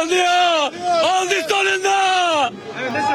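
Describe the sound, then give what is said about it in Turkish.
Football fans chanting at a street celebration in Diyarbakır after their team's promotion to the Süper Lig: loud shouted phrases sung together by many voices, several sustained cries with short breaks, fading into crowd murmur at the end. “Davul ve zurna eşliğinde halay çeken taraftarlar ellerinde takımlarının bayraklarıyla tezahürat yaptı.”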